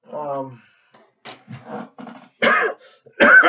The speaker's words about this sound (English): damn cough. See, it's this weather change.